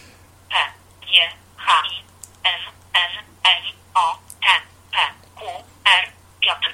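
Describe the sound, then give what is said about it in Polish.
Keys pressed one by one on a joystick-navigated mobile phone keypad, entering text character by character without T9 prediction. About a dozen short, evenly spaced beep-like presses follow one another, with speech-like sound mixed in. “Nie działa tutaj słownik T9, tak więc musimy klepać po prostu wszystkie znaki po kolei.”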